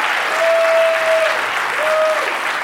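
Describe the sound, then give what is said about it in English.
Audience applause at a live comedy stage show in Seattle: a loud, continuous crowd clapping with two long whistles ringing out over it, the second shorter than the first. “I'll use that fucking applause while it's here.”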